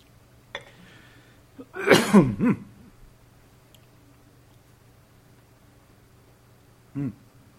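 Coughing and throat clearing from someone with a piece of strong menthol throat lozenge stuck in the throat: a rough, rasping cluster of coughs about two seconds in, then one short cough near the end after a quiet pause.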